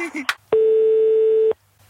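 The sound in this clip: Telephone ringing tone heard while an Italian call is being placed. A brief voice comes first, then a single steady mid-pitched beep lasting about one second, followed by silence.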